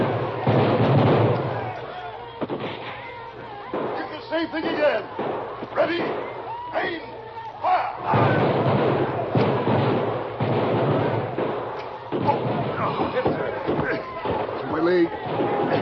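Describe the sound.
A volley of rifle fire from soldiers dug in along a riverbank, loud sharp bursts and heavy booming cracks repeating through the whole stretch, with men's voices shouting and talking between and over the shots.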